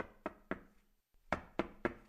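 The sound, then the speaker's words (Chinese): Knocking on a door, sharp, clear raps in two groups of three with a short pause between, fairly quiet and alone. “就在这时候有人敲门。”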